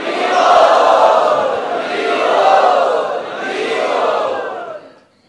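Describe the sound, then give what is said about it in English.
A crowd enthusiastically chants the devotional call Haribol to welcome guests, in three long, swelling waves of many voices together. The chanting then stops abruptly. “Let us very enthusiastically welcome them by chanting Harivol.”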